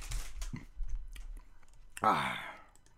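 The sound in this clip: Crunching of someone eating a chip, with a few crisp, crackling bites and a sharp crunch near the end, mixed with soft speech sounds.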